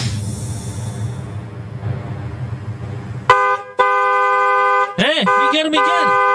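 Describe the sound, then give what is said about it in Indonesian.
A car horn honks after a stretch of steady traffic noise, sounding as a few long, loud, steady blasts with brief gaps. The later blasts waver in tone. “Kok iso elu aku sing diklakson?”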